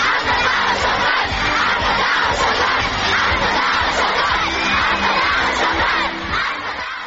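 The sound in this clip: A large crowd gathered by a New Year tree in Turkmenistan cheers and shouts in acclaim, a loud, continuous wall of many voices that holds steady before easing slightly at the end.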